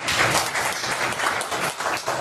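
Applause from doctors and nurses bidding farewell to a young man, a dense, steady patter of many hands clapping together from start to finish.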